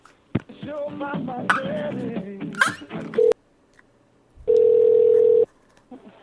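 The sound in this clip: A telephone ringback tone sounds while a call is transferred to an extension. Talk comes first, then a short beep, and after a pause one steady, fairly loud ring burst of about a second.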